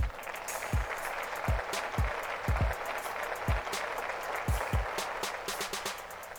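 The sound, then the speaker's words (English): Audience applause welcoming a show's host, a steady wash of clapping laid over deep, repeating bass thumps. “So ladies and gentlemen, please put your hands together for the host of our show, Mr. Eli.”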